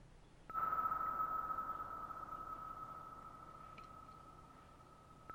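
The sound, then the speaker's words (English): A single sonar ping: a clear, steady mid-high tone that starts abruptly and rings on, slowly fading over a bed of hiss. “That sound is, sonar.”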